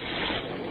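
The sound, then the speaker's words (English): A voice imitates a hissing sound, likened to a Fourth of July rocket. It is a brief, steady, loud breathy hiss with no other sound. “And what did you hear? A hissing sound like this.”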